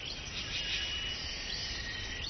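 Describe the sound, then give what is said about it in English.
Insects calling in a jungle on a hot afternoon make a steady, high-pitched buzzing drone. It holds at an even loudness throughout, with no pauses and no voices. “Insects work in harmony, timing their calls to fall between the notes of others.”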